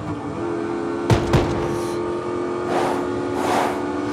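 A car speeds away during a chase, its engine roaring as a steady, full rush of noise with two sharp bursts early on and louder swells near the end.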